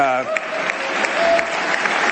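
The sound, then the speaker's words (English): Audience applause for a speaker at a public event, dense continuous clapping that holds at an even, fairly loud level throughout, with a brief voice at the very start. “That is the saddest commentary on this country, that he gets applause for that.”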